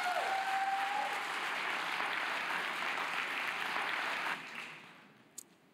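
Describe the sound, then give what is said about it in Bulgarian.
A church audience applauding in a dense, steady clatter of clapping that drops away sharply near the end, leaving a faint tail. “Нека провериме, нека и ръкопляскаме. Супер!”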